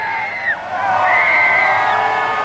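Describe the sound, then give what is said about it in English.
Fans cheer as Donald Trump's inauguration motorcade drives toward the U.S. Capitol. Excited whoops and high shouts ring over a continuous crowd roar, with a brief dip before the cheering swells again. “Fans cheered as now President Donald Trump's motorcade drove toward the U.S. Capitol for his inauguration.”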